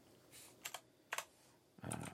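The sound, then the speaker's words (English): Slow typing of a search on a computer keyboard: a few separate, crisp clicks spaced apart, then a quicker burst of keystrokes at the end. “You got to all hear that I don't type very quickly.”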